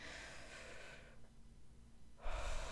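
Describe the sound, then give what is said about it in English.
Someone takes a deep breath in, making a soft, airy hiss. After a brief lull, a louder rush of breath follows. “Let's all just take a little deep breath.”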